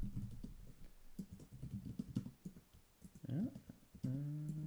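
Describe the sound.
Typing on a computer keyboard produces many quick, irregular clicks and taps at low volume, and a voice briefly sounds near the end.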